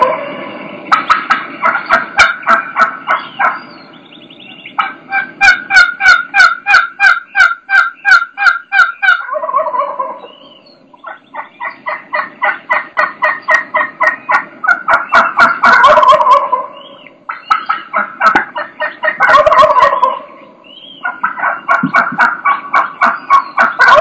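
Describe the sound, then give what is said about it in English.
Hen turkeys give long, loud strings of rhythmic yelps, broken by sharp clucks and quick cutting calls. The calls repeat in bursts throughout, with no talk. “the number of yelps they're doing, the string of yelps is getting longer, and they're starting to throw more clucks in there, and now she starts throwing some cuts in there.”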